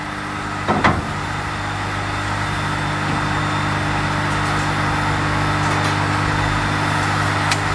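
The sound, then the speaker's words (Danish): Angle grinder cleaning leftover mortar off brick faces, a steady loud drone with a gritty hiss that runs unbroken through the whole stretch. A brief knock sounds near the start. Nobody talks. “Nu kan man faktisk høre det, altså vinkelsliber, der kører og renser den.”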